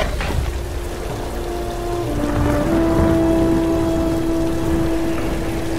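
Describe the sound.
Rain falls in a steady, even hiss of drops, with a faint sustained hum running underneath and no voices.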